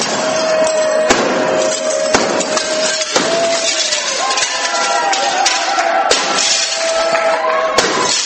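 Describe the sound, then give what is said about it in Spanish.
Glass panes smashed during an artist's performance: several sharp crashes land at irregular intervals over a dense, continuous wash of noise, with a steady tone running beneath. “No sé, algo que están rompiendo, ¿no? Sí, están este Michelangelo Pistoletto rompiendo cristales.”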